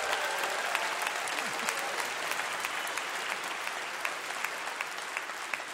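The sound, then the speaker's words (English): Audience applause, a steady continuous patter of many hands clapping, moderately loud and even from start to finish, with faint crowd murmur mixed in and no speech over it. “Yeah, you can clap.”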